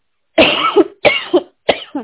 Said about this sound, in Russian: Какой-то кашель начинается у меня.